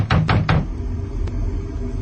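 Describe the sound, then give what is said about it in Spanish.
Three loud, heavy knocks on a door in a radio drama with frightened survivors, struck in quick succession within the first half second, then a low droning hum continues alone. “Los dramáticos golpes en la puerta paralizan a los aterrados sobrevivientes.”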